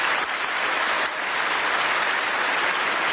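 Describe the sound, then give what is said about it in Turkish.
A standing ovation in the European Parliament plenary hall for Canadian Prime Minister Mark Carney: a dense, steady wash of many hands clapping, sustained at an even loudness with no talk over it. “Carney dakikalarca ayakta alkışlandı.”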